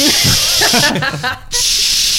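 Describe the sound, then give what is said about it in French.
A voice imitates an Axe aerosol deodorant spray being applied under the armpits: a loud, steady hissing with some voiced sound early on and a short break near the end before the hiss resumes. “cet enfoiré s'est mis du déo. À côté de moi, mais genre du déo en bombe quoi. Ah oui, il l'a mis sous son t-shirt là, il a vraiment fait”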